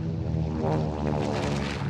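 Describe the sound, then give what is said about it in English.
An airplane flying, used as a sound effect: a steady, droning engine hum, full and even throughout, with a slight pulsing texture. “Yukon and the Bumble booked 4 tickets down to L.A. Business class for the prospector and his husband, coach for Rudolph and Hermie, of course.”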